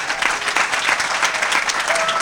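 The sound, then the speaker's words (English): An audience breaks into applause, a dense, steady wash of many hands clapping at an even loudness for a couple of seconds, with no clear talking over it. “how about a round of applause?”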